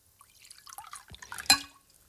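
Water poured from a small jug: a few soft, scattered drips and trickles, then one sharper splash near the end, all faint and heard alone.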